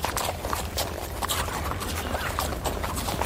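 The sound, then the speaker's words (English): A mule's hooves clip-clop in a steady, fairly loud run of many hoofbeats. The strikes are evenly paced and continue with no break. “Here, get on this mule. You can't walk it.”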